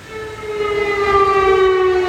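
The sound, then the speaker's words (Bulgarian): Air raid sirens sound at night in the city of Lublin, Poland, as one loud, sustained wail. The tone holds a nearly level pitch with rich overtones, and no voices are heard. “Сирени за въздушна тревога прозвучаха в град Люблин с нощи, а армията вдигна изтребители.”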